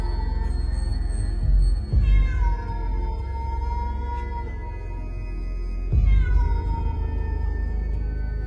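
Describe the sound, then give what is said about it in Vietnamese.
A cat yowls plaintively while roaming around a house: two long, loud, drawn-out wails rich in overtones, each starting abruptly and heard alone. “Đầu đầy tiếng con mèo vẫn cứ nhảy nhót quanh nhà, kêu lên thê thiết.”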